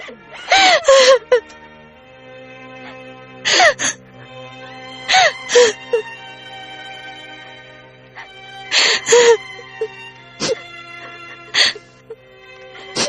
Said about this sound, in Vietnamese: Mẹ à, mẹ đừng khóc nữa. Đừng có khóc nữa mà.